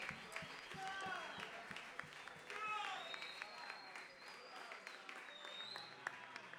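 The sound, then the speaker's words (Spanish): Applause from the audience at a Bob Marley tribute concert rises in a continuous, moderately loud wash, with voices and a few whistle-like tones mixed in. “Fuerte el aplauso, hermano.”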